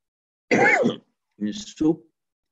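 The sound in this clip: A person clears their throat in three gruff, rasping bursts: one longer burst, a pause, then two shorter ones close together.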